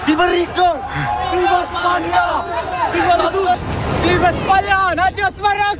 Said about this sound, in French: C'était le chaos ce matin à Ceuta. Ce que vous entendez, c'est l'arrivée par la mer de milliers de migrants qui ont franchi la frontière entre le Maroc et l'Espagne, certains à la nage.